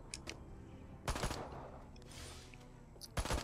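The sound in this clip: A large gun fires in a video game, in a few short, faint bursts of rapid shots separated by quieter stretches.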